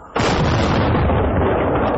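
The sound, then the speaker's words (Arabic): An iftar cannon fires to mark the end of the day's fast: one sudden loud blast, then a long, steady, rumbling roar that holds at full strength to the end. “وينطلق مدفع الإفطار إذانا بانتهاء هذا اليوم. مدفع الإفطار أجرى.”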